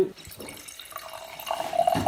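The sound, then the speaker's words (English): Wine is poured into a glass, giving a soft, uneven liquid trickle and gurgle that grows a little louder and more tonal toward the end. “you've just poured us some wine”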